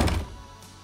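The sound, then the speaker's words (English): A door being shut produces one dull, low thunk at the very start, and the sound dies away quickly into quiet. “The narrator comes in and shuts the door behind him.”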